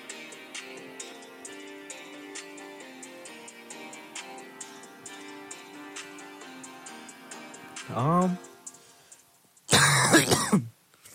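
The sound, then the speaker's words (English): A harsh cough from someone who is sick bursts out once near the end, loud and rough, after a brief throaty vocal sound, all over quiet music with steady ticking. “You know you're sick when you cough and like you can feel it in like”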